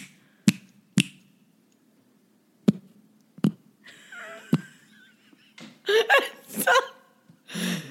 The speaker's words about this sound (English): Okay, here's my snap.